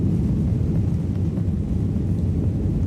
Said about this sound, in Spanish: hoy nos hemos subido de nuevo a un avión de Iberia, vamos camino de Tokio, nada menos.